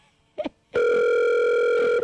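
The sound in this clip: An outgoing telephone call ringing unanswered: after a brief soft blip, a loud, steady, buzzing ring tone holds without a break to the end.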